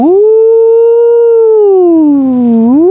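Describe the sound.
A voice imitates a wolf howl with one long, loud, sustained hoot that climbs at the start, holds steady, sags lower and then lifts again at the end.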